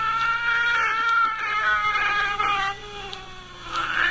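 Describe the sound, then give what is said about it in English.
A cat yowls in long, wavering meows whose drawn-out, shifting cries sound eerily like speech, several harmonic calls in a row with no talk over them. “That is horrifying. I mean, that's what a cat sounds like when it talks.”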